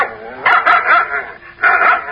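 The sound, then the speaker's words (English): Barking from a huge dog with eyes as big as saucers: several loud, rough barks and yelps in quick bursts, with a short pause before the last one. “It was the dog in the tree. The first one with the eyes as big as saucers.”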